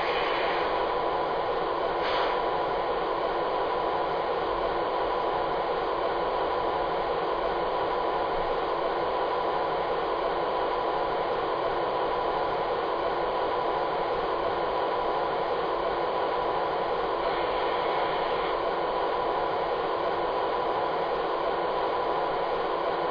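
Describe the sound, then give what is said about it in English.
The motor of a DG1 locomotive on a freight run gives a steady, unbroken mechanical roar. Its level stays even, with no clear changes in pitch, throughout. “Hey, so what do you think about this motor? They don't build them like this anymore, do they?”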